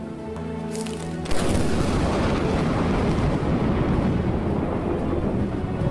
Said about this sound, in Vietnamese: Tiếng sấm nổ như tiếng bom phát ra phía sau sân vườn. Chưa bao giờ bà Hoài nghe thấy một tiếng sấm nào mà khiến cho cả ngôi nhà rung chuyển như vậy.